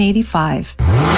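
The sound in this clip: A car engine revs at a summer car meet: two quick, loud revs whose pitch climbs sharply, short and punchy.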